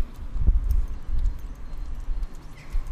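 Soft, dull hoof thuds of a horse moving at a walk during a gait check, with a few low footfalls at an even, unhurried pace and no voices.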